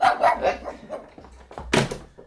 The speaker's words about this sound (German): Herr Semadeni, respektive einer von seinen vielen Hunden.